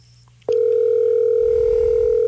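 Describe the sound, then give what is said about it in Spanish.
Telephone dial tone heard while placing a call: after a quiet lead-in and a short click, a loud, steady single-pitched hum starts abruptly and holds unbroken to the end. “Vamos a ver. Llamemos a Jorge.”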